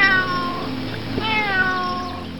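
Cat meowing, one of several farm animals, with two drawn-out, high harmonic meows separated by a short gap, clear and fairly loud over a faint steady background.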